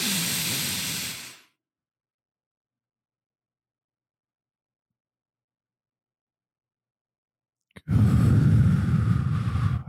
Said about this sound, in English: And on this third deep breath in through the nose,